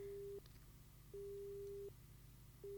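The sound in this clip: A telephone busy tone sounds after a caller's line is cut off: steady mid-pitched beeps with short silent gaps between them, over faint low background noise.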